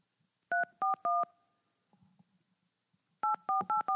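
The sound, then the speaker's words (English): A telephone number is dialed on a keypad. Three short, clean two-tone beeps come in quick succession, then a pause, then four more beeps in a rapid run. “Oh, I dialed it wrong.”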